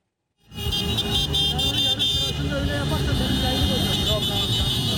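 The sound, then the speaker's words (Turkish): Motorcycles and cars roll out in a dense, steady roar as hundreds of motorcyclists and cyclists leave Taksim in Istanbul on a commemorative ride marking the 10th anniversary of 15 July, honouring 253 victims, with voices mixed into the traffic. “253 şehidi temsilen yüzlerce bisikletli, motosikletli Taksim'den yola çıktı.”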